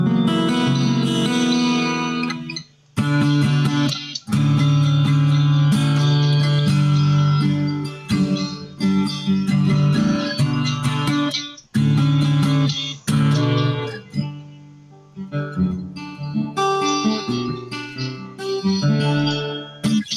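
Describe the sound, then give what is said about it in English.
Yamaha acoustic-electric guitar played with hall reverb and chorus effects, ringing chords and picked notes with shimmering, washy sustain, phrases broken by a few brief pauses. “That's with the hall reverb, and I've got chorus on.”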